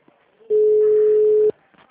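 A telephone ringing tone as a call is placed: a single steady, mid-pitched tone lasting about one second, with faint background before and after it.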